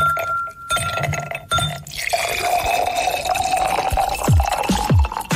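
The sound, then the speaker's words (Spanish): Ice cubes clink in a glass, and a Mr. T drink is poured over them in a steady, bright stream of liquid. A few sharp clinks come before the pour and a few more near the end. “Estamos seguros de que con solo oír los hielos y la servida de esta bebida, te antojaste de un Mr. T.”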